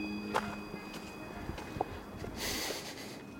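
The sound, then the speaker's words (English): Footsteps on a path on Joppenburg Mountain: a few soft, faint steps at an uneven pace over a steady low hiss, with a brighter rush of noise near the end. “I sent them about half an hour of me walking around on Joppenburg Mountain.”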